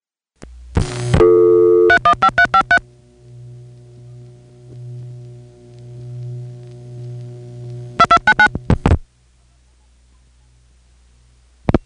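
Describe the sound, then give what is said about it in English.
Telephone tones after dialing, routed to a centralized intercept concentrator: quick bursts of dialing tones, then a long, steady low tone with harmonics, then another run of short tone bursts before silence. “after the dialing out is finished, you hear a ring that isn't coming from Norwood. It is instead coming from a centralized intercept concentrator, possibly in Potsdam.”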